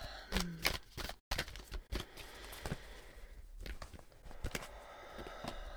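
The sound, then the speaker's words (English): Tarot cards being shuffled by hand give quiet, papery rustles and irregular soft flicks and taps that continue throughout. “so I will shuffle the cards”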